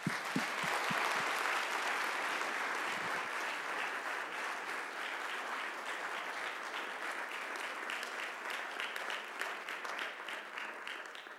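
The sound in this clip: Applause from an audience welcoming a speaker at Whitworth University in Spokane: dense, sustained clapping that fills the whole clip at a steady level, tapering only slightly toward the end.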